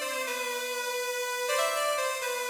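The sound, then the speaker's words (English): A fat additive synth made from one track doubled and detuned holds a steady, rich, buzzy sustained tone, its timbre brightening into a second note partway through, with nothing else playing. “The final synthesis that I used that I haven't talked about yet is additive synthesis. This was done in Loom, using one track and then doubling it and detuning it to get a real fat synth that sounds like this.”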